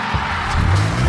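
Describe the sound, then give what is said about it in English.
A promotional cruiser car rolls in with a low engine rumble and some tire noise. The sound grows heavier through the second half and stays loud throughout, with no talk. “That's the sound of the CJWE Cruiser rolling in, powered by ATB Financial.”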